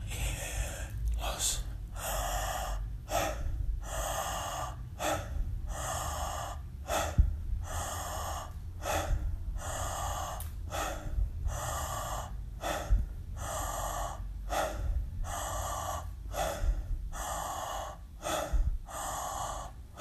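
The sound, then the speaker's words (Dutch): Deep breathing exercise: a person takes many rhythmic breaths in and out at a steady, fairly quick pace, each one a clear breathy rush of air, with no talking. “Adem in en laat los. Adem in en los. In, los.”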